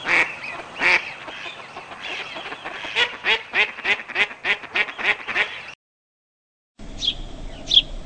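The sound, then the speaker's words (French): Mallard duck quacking in a rapid, rhythmic run of loud nasal quacks, then a short silence and a few fainter quacks. “Le canard colvert.”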